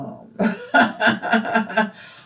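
A person coughs in a quick run of several short, raspy bursts, each loud and sharply separated, with no talk over them.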